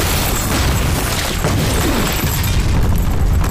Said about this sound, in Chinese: 炸弹，小心炸弹。